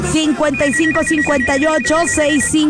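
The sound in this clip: Telephone line ringing on a radio call-in show: a loud electronic ringtone trills in a quick repeating pattern, steady for the whole stretch.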